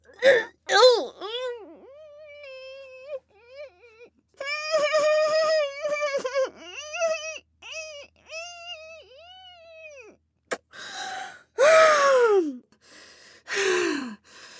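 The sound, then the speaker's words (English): A person choking and gasping for breath, with loud strained gasps and wavering, moan-like cries in several bursts. Some cries sweep downward in pitch, and harsh breathy rasps come near the end. “I'm gonna choke on it, you. Oh, I can't breathe.”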